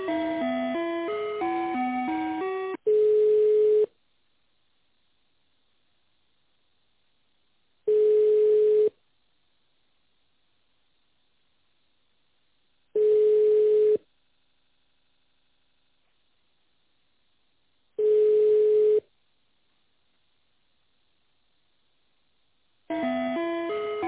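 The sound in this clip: Telephone tone during a call transfer: four long, steady beeps about five seconds apart, each lasting around a second, with bursts of hold music at the start and at the end.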